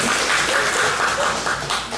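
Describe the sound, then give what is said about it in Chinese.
An audience claps for a teacher at a group gathering, producing a dense, steady patter of many hands that holds at an even level before easing slightly at the end. “哇，我们给他拍拍手，耶！”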